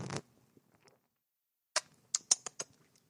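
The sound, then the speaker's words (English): A sip of a fizzy, bubbling drink: a short rushing slurp, then after a pause several crisp, quiet pops and crackles of bubbles. “Sorry, I had to take a little sip off the top. Let those bubbles do its thing.”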